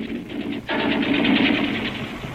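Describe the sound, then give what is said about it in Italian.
Gunfire from German troops still shooting during the fighting for Rome's liberation, a dense rapid rattle like machine-gun fire that dips briefly, then surges back and roars on steadily. “Ma non potete avvertire i tedeschi che stanno continuando a sparare.”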